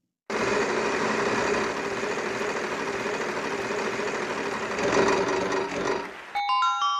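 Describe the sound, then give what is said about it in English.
Whirring rumble of a large, heavy globe being spun: a loud, steady drone with a tonal hum that swells slightly near the end, then breaks off into a few bright, chime-like ding tones. “You spin that globe. Oh, okay, it's a big one, real heavy. Don't spin too fast. You'll spin it right off the... Whoa, careful.”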